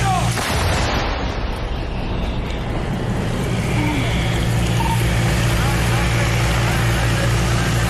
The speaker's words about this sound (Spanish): Bueno, acabamos de realizar un apoyo de fuego de artillería de campaña mediana, de obús calibre 155.